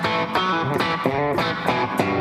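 Electric guitar played through a distortion effect that ranges from clean to overdriven tones, heard as a series of sustained notes and chords with crisp attacks and rich, buzzing harmonics, alone without voices.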